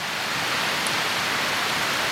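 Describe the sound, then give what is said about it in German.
Heavy rain pours down in a rainforest as a dense, steady wash of hissing noise that fills the whole clip without pause. “Oha, Regen. Richtig, ja, ne? Richtig viel Regen. Ja, echt, was für ein Regen. Wir sind im Regenwald.”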